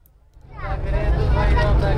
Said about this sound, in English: Driving through Kabul, we pass a school.